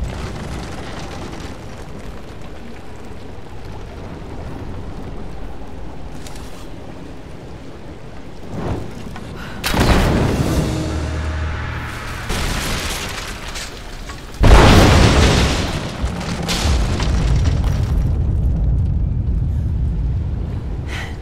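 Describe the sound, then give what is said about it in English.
Greek fire explosions in a video game cutscene as an unstable statue is brought down: two heavy, loud blasts burst over a low rumbling roar, each leaving a long, crackling, rushing tail. “The statue's unstable. Looks like I'll have to use the Greek fire.”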